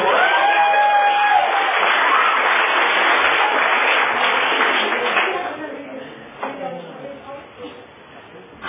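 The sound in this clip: Audience applause and cheering welcoming a speaker at a sobriety meeting: dense clapping with whoops and voices for about five seconds, then thinning out into quieter, scattered sounds.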